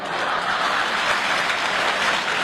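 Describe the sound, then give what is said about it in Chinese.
Warm applause from an audience of grandparents for a child performer at a traditional opera and ballad-singing show, a steady, dense patter of many hands at moderate loudness, unbroken and without voices. “你看，爷爷奶奶们给你这么热烈鼓掌”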